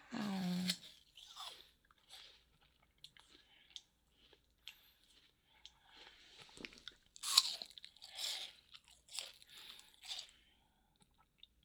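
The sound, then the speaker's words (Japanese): Crunchy bites of an apple being chewed for ASMR: many sharp, crisp crunches, then quieter wet chewing in an irregular rhythm, with faint voice sounds in places. “ASMR しちゃおうかな。リンゴです。”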